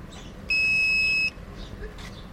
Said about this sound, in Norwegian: Skal vi se, da må vi kanskje ringe på først.